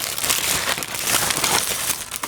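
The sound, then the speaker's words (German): Continuous loud rustling and crinkling, a dense, hissy, irregular crackle that runs unbroken throughout with no talk. “Es raschelt, mach nichts.”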